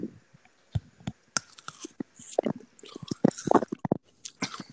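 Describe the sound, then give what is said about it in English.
Biting and chewing a small tomatillo: many crisp, wet clicks and squishy crunches come in an irregular rhythm, fairly faint at first and then busier, with no talk over them. “Here, I'm ready to take a bite. You guys ready? Yep. It's just a little tomatillo.”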